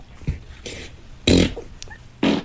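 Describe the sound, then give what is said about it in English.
A few short, noisy fart bursts, made for a fart-guessing game, break out at uneven intervals, the loudest two in the middle and at the end, with quieter rustling between them. “Guess my fart. Baby, guess the fart.”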